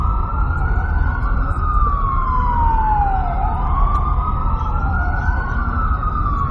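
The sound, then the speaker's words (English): An emergency vehicle siren passes on a New York City street, its loud wail sweeping up and down in pitch over a steady rumble of traffic. No voices. “Let this emergency vehicle pass here while I drink some coffee.”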